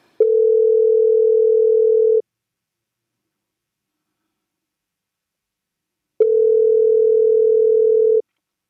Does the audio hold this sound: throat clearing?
no